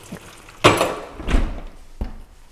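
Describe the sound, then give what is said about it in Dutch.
A knife is put into a dishwasher with three short clattering knocks, the first loudest, spaced out over a couple of seconds with quiet between them. “Ik doe dit mes even hier in de vaatwasser.”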